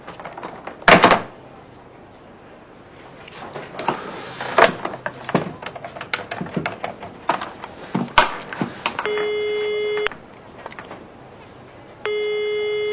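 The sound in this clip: A telephone rings with two steady electronic tone bursts, each about a second long, after a few scattered knocks and clatters.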